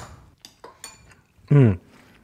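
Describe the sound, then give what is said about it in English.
Light clinks of utensils against a pan as dumplings go into cabbage and butter, a few soft metallic taps spaced apart, followed by a short burst of a voice. “Okay, now we're going to add the dumplings.”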